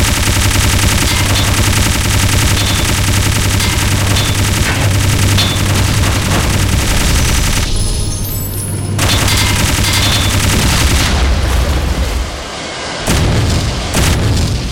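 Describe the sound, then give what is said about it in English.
Machine gun fire in a video game rattles continuously in a dense, loud stream mixed with heavy booms, dipping briefly in the middle before the barrage resumes and cuts off near the end. “Machine gun.”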